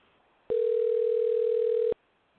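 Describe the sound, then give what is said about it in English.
A telephone dial tone sounds while a call is being placed: one steady, clean, mid-pitched tone of about a second and a half that starts and stops abruptly, with no voices. “We're not calling some random person. All righty, let's dial in Jesse.”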